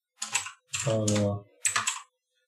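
Keys clatter on a computer keyboard as a code rule is typed, coming in three short bursts of clicking separated by brief pauses.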